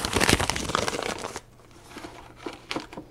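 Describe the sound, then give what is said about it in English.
A number 2 paper coffee filter being handled, giving dense, crisp crinkling and rustling for over a second, then a few quieter scattered crinkles. “I have a number 2 coffee filter.”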